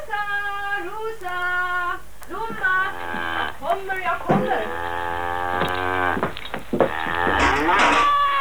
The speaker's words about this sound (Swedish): Sista kvällen jag mjölkar i de små kossorna.